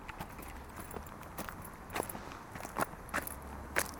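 Footsteps climbing a quiet forest hill: faint, irregular crunching steps, many of them, over a low, steady background hiss.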